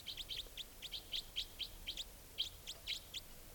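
Wild bird calling near cages: a rapid series of many short, high chirps repeated in quick succession, fairly faint, with no voices.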